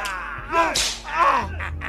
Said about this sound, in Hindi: साहब इसको हंटर मारो।